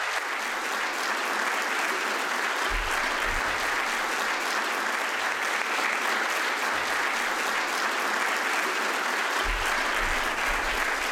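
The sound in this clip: An audience applauds to welcome a guest speaker, a dense, even wash of clapping that carries on steadily for about eleven seconds without letting up.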